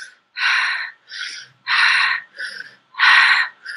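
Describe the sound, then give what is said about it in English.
A rhythmic breathing pattern demonstrated by one person, made of a series of strong, breathy bursts of air in an even, pulsing rhythm with brief silences between them. “there's conscious rhythmic breathing, which would be being conscious and breathing rhythmically. And then there's many kind of breath patterns. So you can go,”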